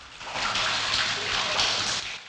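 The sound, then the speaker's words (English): A fountain spouts water at the entrance to an open underground chamber, giving a steady, loud, unbroken hiss and splash that holds at the same level throughout. “A fountain spouts water at the entrance to an open underground chamber.”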